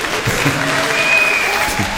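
Scattered audience applause, a loose ripple of many uneven hand claps from a crowd, sustained and fairly loud throughout.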